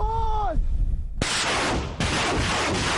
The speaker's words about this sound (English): Further back, the artillery takes aim.